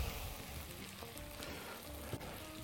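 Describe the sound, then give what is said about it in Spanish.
Tomato cooking in a pan for a sauce, a steady, even sizzle and crackle of frying that holds at a moderate level throughout, with no voices. “Vale, pues ahora ya cocinamos el tomate.”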